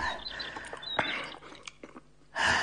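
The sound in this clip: Someone chews and eats food, with the morning porridge served at the table: a few soft crunchy bites and mouth sounds over a couple of seconds, ending in a louder burst.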